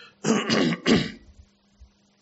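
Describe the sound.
A speaker mid-sermon clears their throat in two rough, raspy bursts, moderately loud, followed by near silence.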